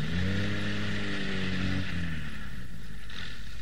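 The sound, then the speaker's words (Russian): A car engine hums low and steady as the car drives into a yard late at night. Its harmonic drone shifts lower partway through over a constant wash of noise. “давай загоняй машину во двор!”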